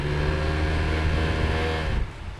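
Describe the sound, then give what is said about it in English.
A motor revs on the river at Grafton, Illinois, where the Mississippi meets the Illinois River. It gives a steady, loud, low droning hum with strong harmonics that drops off sharply near the end. “all you have to do is rev the motor a bit”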